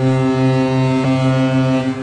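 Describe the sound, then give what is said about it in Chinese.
A large 30,000-ton ro-ro passenger ferry sounds its horn as it departs Dalian: one deep, steady, harmonic-rich blast that holds at a constant pitch and loudness through the whole clip, with no voices. “上午9:40，3万吨级大型滚装客轮吉隆岛号从辽宁大连准时鸣笛起航。”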